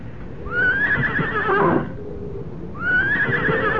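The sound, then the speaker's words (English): An old horse tethered in the woods gives two loud, high whinnies. The first is drawn out and wavering, and the second starts after a short pause and runs to the end. “Then I made the long walk back to the woods, back to my horse, to my old friend, who stood patiently tethered, waiting for me,”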